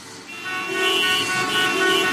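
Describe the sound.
Car horns honk in traffic: sustained, bright horn tones start just after the opening and blare on steadily over a low rumble of road vehicles, loud and without speech.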